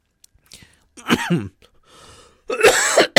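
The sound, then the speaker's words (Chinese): Coughing from a person with a cold comes in two harsh, raspy bursts separated by a brief quiet breath, loud and alone with no talk over it. “不好意思，今天因为这个感冒，所以有时候会咳嗽”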